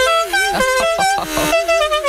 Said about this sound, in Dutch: Zo heeft deze jongen speciaal voor de gelegenheid een flinke toeter achterop gebouwd.